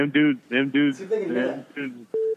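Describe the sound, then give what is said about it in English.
A single short telephone beep sounds as a steady mid-pitched electronic tone right after people talk, standing alone at the end. “Like, can you hear that beep? Whoever's listening on that thing. Oh, yeah. People out there listening, do you guys hear a dial tone?”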